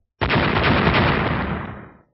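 A loud explosive roar from a fantasy battle blast. It hits suddenly, holds at a steady level for about a second and a half, then fades out quickly.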